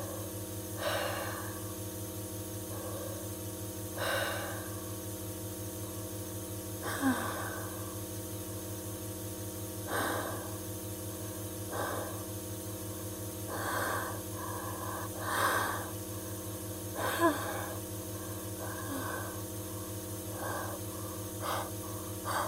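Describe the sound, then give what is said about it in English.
Deep, repeated breathing while inhaling gas: faint, airy breaths recur every few seconds, many in all, over a steady low hum. “Nice deep breaths, please.”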